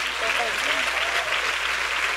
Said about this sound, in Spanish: Si ese es el aplauso, dáselo mejor a tu padre.